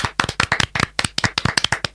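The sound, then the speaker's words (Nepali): Students in a classroom clap for a classmate's poem. Many sharp, crisp hand claps come in a brisk, slightly uneven rhythm, with no talk. “सम्झनालाई सुन्दर कविताका लागि ताली बजाएर स्याबासी दिउँ त।”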